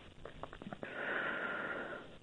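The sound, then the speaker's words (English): A person draws in a deep, wheezy breath that lasts about a second and sounds airy and slightly hissing. Before it come a few short, breathy puffs, and the whole is faint. “Okay, take another deep breath.”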